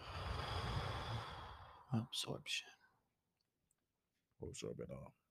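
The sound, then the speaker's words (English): A deep exhaling breath taken during a guided chakra grounding meditation: a long, loud, breathy exhale, then a pause and a few short, softer breathy sounds. “Deep breath out.”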